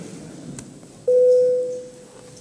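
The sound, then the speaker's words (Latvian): An electronic bell tone calls members of parliament to a vote, a single steady mid-pitched note that starts abruptly, holds briefly and then fades away over faint background noise. “Lūdz zvanu.”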